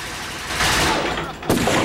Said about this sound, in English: Queen Victoria comes in with a machine gun and opens fire.